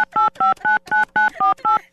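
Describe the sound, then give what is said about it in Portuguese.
Touch tones of a telephone number being dialed: a quick, evenly spaced run of many short dual-pitch beeps, each tone sharp and clear, with brief gaps between them and no talk. “esse número não tá atendendo, viu, bêbado? Tentar mais uma vez no número antigo.”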